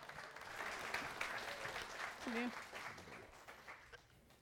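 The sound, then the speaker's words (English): Audience applause welcoming a speaker's wife to the stage: a faint, steady patter of clapping throughout, with a voice briefly heard over it. “will you put your hands together and welcome my wife”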